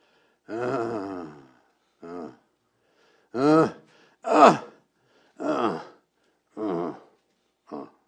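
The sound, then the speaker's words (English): A voice imitates vineyard branches groaning as they produce fruit. There are seven drawn-out moaning groans, each separated by a short silence, alone without other sound. “And if you ask the vineyard owner, what's that sound out there? They'll tell you, that is the branches groaning to produce fruit.”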